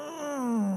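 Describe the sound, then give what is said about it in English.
A person imitates a groan of distress with a single drawn-out moan lasting under a second. It slides steadily downward in pitch and is heard alone. “oh, it's groaning. It's not mumbling.”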